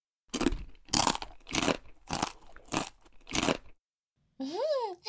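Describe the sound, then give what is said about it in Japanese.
Crisp crunching of Japanese pickles being chewed, six loud, even bites in a steady rhythm, then a short silence and a brief higher sound. “先輩、この漬物美味しいですね。これ、この前二人で旅行行った時買ったやつですよ。”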